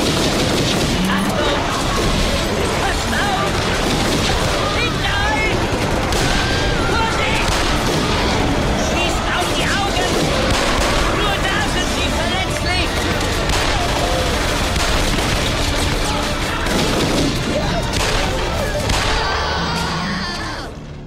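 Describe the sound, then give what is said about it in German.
Heavy gunfire as men open fire on charging dinosaurs in a horror audio drama, a loud, dense, unbroken barrage of shots and blasts that fills the whole stretch before easing at the very end. “Los, Männer! Eröffnet das Feuer! Schicken wir diese Bestien zurück in die Uhrzeit!”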